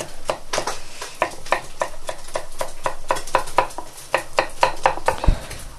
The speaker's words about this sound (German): Aber ich lasse das mal einen Augenblick drin, schneid noch. Schneide, schneide, schneide.